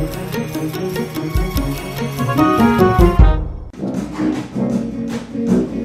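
Brass band playing an upbeat pop song: loud, full ensemble with bright horns over a steady rhythmic beat, continuing throughout.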